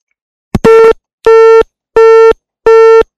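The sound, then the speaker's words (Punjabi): Telephone busy tone after a caller's line is cut off during a phone-in song request: four steady, evenly spaced beeps at one mid pitch, the first rougher and preceded by a click, loud and alone. “ਤਕਨੀਕੀ ਕਾਰਨ ਕਰਕੇ phone ਜਿਹੜਾ ਉਹ ਕੱਟ ਹੋ ਗਿਆ ਜੀ।”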